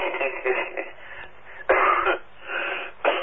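Coughing and throat clearing from someone with a tickle in the throat, heard as a few rough, raspy bursts, the sharpest two near the middle and at the end, with thin, muffled sound quality.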